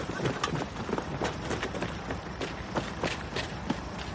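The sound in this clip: Hurried running footsteps of a teenage girl crossing a motorway rest area toward a waiting coach: a quick, uneven stream of faint steps mixed into busy background noise, with no voices.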